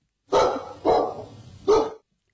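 A dog barking: three loud, sharp barks with short pauses between them, the second trailing off longer, with no other sound.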